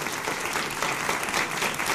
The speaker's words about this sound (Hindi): थोड़ा तालियां बजा लीजिए।